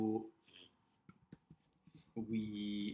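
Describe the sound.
Computer keyboard typing: a short run of sharp, dry key taps with uneven spacing, set between stretches of people talking.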